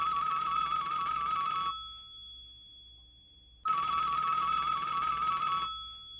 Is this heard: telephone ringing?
yes